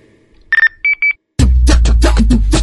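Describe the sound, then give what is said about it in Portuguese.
A phone ringtone plays a few short, high electronic beeping tones in quick bursts, then loud, rhythmic music abruptly takes over. “Tô te ligando faz tempo, bicho. Atende aí, meu.”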